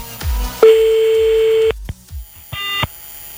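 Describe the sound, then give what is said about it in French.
A fax machine tone comes through on a phone line as a long, loud, steady beep. After a pause with a few soft clicks, a shorter, brighter beep follows. “Allô? Oh putain, un fax. Mais qui a encore un fax aujourd'hui, putain?”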